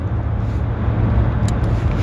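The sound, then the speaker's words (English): A car drives along the road, a steady, low engine and road rumble that holds evenly throughout, with no voices over it. “I, I don't have it in front of me because I'm driving.”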